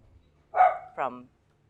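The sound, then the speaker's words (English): Two short, sharp barks from a dog, the first slightly longer than the second, ringing out clearly against a quiet background with no talk over them. “can you tell me about that dog barking?”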